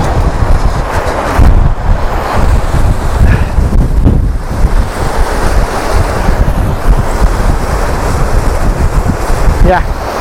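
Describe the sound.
Strong wind and breaking waves at the coast: a loud, continuous roar of surf with heavy wind buffeting the microphone throughout, steady and unbroken.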